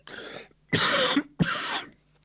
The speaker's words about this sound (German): So, jetzt kommt der archaische Huster. Entschuldigung.